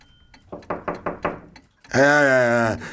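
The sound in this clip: Knocking at a door: a short run of a few firm, evenly spaced raps, followed by a sustained voice-like sound.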